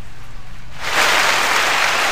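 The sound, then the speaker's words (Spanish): Applause for a youth football team that has qualified in a Baby Fútbol tournament. Near-quiet for about a second, then a dense, steady burst of clapping begins and continues to the end. “Bueno, muy bien, aplausos entonces también para Conquistadores de Barranca Bermeja, que ha logrado el cupo y esta clasificación a la fase de zona oriente del Baby Fútbol Colanta.”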